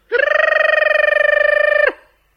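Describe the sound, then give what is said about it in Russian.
An electric school bell rings to signal the end of a lesson, a loud, rapidly rattling tone at a steady pitch that sounds for about two seconds and then cuts off. “Для нас самый приятный звук – звонок с урока. Ну что ж, порадую ваш слух.”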